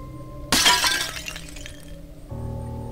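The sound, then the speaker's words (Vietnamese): A single sharp crash of white glazed ceramic floor tiles breaking in a kitchen, followed by clattering fragments that fade over about a second and a half. A low, steady hum continues afterward. “Tiếng gạch bông bể làm ông giật cả mình.”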